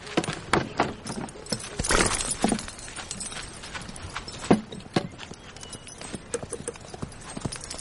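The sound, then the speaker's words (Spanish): Horse hooves clip-clop as riders arrive on horseback, a run of irregular, sharp knocking strikes over a faint background, with a few louder hits in the middle. “Al poco llega la princesa de Éboli a caballo con otro hombre.”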